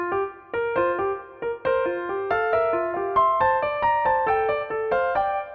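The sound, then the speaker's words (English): A piano plays two melodic lines at once, a higher and a lower voice moving together in clear, evenly paced notes at moderate loudness, with no other sound. “so chances are that if you wanted to add some simultaneously played notes, you'd need to have, for instance, a second violin play them. On the piano, that would sound like this.”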